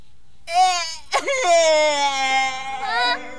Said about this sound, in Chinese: 别哭嘛，还有什么事有说的就好了嘛。还有，我从你的哭声也听不懂你受的委屈呀